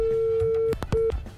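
A telephone busy tone sounds after a dropped call: one long steady mid-pitched beep, a short break with a couple of clicks, then a second, shorter beep.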